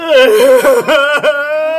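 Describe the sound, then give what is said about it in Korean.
A man cries aloud in a loud, voiced wail with a wavering, breaking pitch. Short catches and sobs break up the sustained moaning sound. “아빠, 저 남자 울어.”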